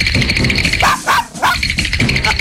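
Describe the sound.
A dog barks loudly a few times in short yipping bursts over a steady background.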